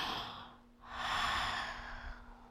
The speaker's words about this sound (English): Breathe in and exhale.